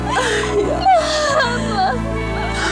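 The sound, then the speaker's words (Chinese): A child whimpers and sobs in wavering, high, broken cries over a low steady hum, fairly loud, with voice-like pitch slides rising and falling throughout. “别哭了。孩子，委屈你了。”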